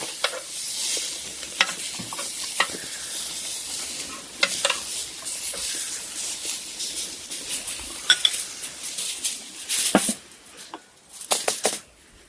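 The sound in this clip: Meat sizzling as it fries in a pan, a steady crackling hiss throughout. Sharp clinks and scrapes of utensils against the pan break in several times, with a cluster of louder knocks toward the end.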